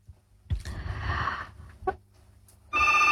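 Telephone ringing for an incoming call on a call-in phone line: a burst of noisy handling comes first, then a loud, steady electronic ring tone starts near the end.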